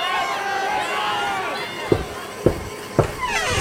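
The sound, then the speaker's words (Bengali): A loud crowd clamours and shouts slogans outside during a protest, a dense, continuous mass of raised voices and babble. “ঠিক সেই মুহূর্তে বাইরে প্রবল হল্লা slogan.”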